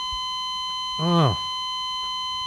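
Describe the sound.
A heart monitor's flatline beep holds as one steady, unbroken electronic tone for the whole clip, with a brief voiced exclamation rising over it near the middle.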